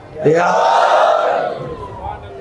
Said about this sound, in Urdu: مل کے لگائیں ذرا ایک نعرہ،